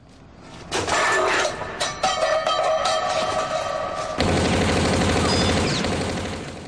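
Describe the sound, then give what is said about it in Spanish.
Rapid gunfire from a robber shooting at a robot: a dense string of loud shots and thuds that runs without pause, then gives way to a steady, harsh wash of noise before fading. “El ruido alerta a Flamenco, que dispara contra él.”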